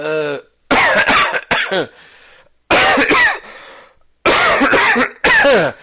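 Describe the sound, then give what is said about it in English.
Harsh, loud coughs from someone recovering from illness, coming in several clustered bursts separated by short pauses, with a brief voiced sound just before the first burst. “I'm leaving those coughs in. Normally I don't cough that, but that was so well timed that I'm leaving those in.”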